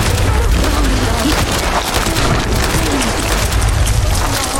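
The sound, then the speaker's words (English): Loud video game gunfire during a fight with cultists beside a giant mire lurk: a dense, continuous rumble of shots and booms with no clear gaps, filling the whole stretch at high volume. “Yeah, shoot at the cultists. Get him.”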